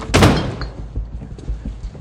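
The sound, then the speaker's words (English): Front door being shut: one sharp, loud bang near the start, followed by fainter low knocks and rustling. “He shuts the door.”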